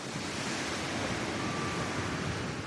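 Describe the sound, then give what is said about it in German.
Surf breaking on the beach at Village Bay, St. Kilda, Scotland: a steady, dense roar of waves and continuous wash with no distinct crashes standing out, heard alone without voices. “Ich stehe am Strand von Village Bay und lausche der Brandung, die die Insulaner jeden Tag im Ohr hatten.”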